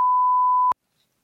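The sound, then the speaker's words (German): A single steady high-pitched censor bleep holds loud and unwavering for under a second, then cuts off abruptly into silence. “Machst du denn Piep darüber, wenn ich jetzt sage?”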